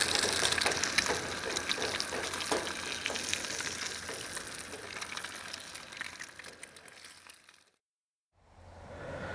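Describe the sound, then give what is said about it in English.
Steady sizzling of an egg frying in a pan on a camping trip, a continuous crackling hiss that cuts out briefly near the end before resuming more faintly. “Oh, egg yolk broke. Well, it's gonna be a fried egg then.”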